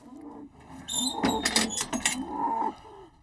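An Angus bull in a hoof-trimming crate gives low, drawn-out moos at the start and end. Between them come sharp metallic clanks and rattles.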